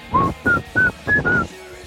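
A person whistles in a 20-person open-plan office, five short, clear notes in quick succession at a fairly high pitch, the first slightly lower than the rest, followed by a faint trailing tone.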